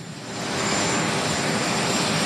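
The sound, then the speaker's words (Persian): Steady roar of Marine One, the US presidential helicopter, arriving at a joint base: a loud, broad engine wash that swells over the first half second and then holds constant. “تصاویر زنده رو میبینید از مارین وان هلیکوپتر رئیس جمهور که او رو به پایگاه مشترک امروز آورده، جایی که او تا دقایق دیگر راهی لس آنجلس خواهد شد.”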